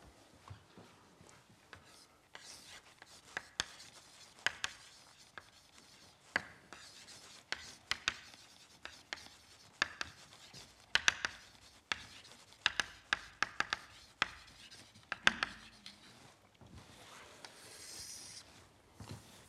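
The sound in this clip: Writing on a board during a physics lecture on fluctuation-dissipation relations: faint, scratchy strokes and small taps come in many irregular bursts, separated by brief quiet gaps.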